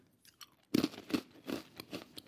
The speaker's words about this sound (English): All right, so I just tried both pretzels, and I have a very clear opinion.